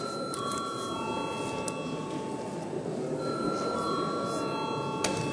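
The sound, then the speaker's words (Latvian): Bell rung in the Latvian parliament to call a vote, heard as faint, steady high-pitched ringing in two sustained stretches over a constant murmur of background noise. “Paldies, lūdzu zvanu.”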